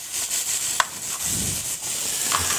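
Nutmeg grated by hand, a few soft, dry rasping strokes at a steady pace, faint and alone with no voices.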